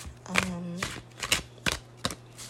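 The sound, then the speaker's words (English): Tarot cards being pulled from a deck during a reading: a few crisp, papery slaps and snaps, with a voice briefly heard between them. “So I'm just pulling cards for the collective.”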